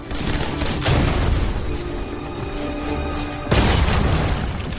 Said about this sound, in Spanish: La granada explota lanzando afilada metralla de estaño que corta al teniente coronel.